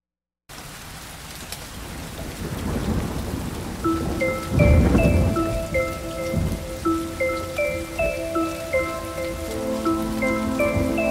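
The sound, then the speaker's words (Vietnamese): Raindrops pattering in a steady, hissing wash of rain, joined by a gentle melody of repeated bright notes that rises above the downpour partway through. “Từng giọt mưa tí tách”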